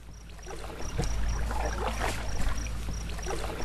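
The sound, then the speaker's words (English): A slightly wobbly canoe loaded with two backpacks of gear pushes off into the water. Soft scraping and sloshing swell and fade over a low, steady background, with a faint, evenly pulsing high tone behind it. “pushes off in a slightly wobbly canoe with two backpacks full of gear.”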